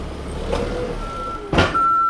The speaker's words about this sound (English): Forklifts unload truckloads of stuff.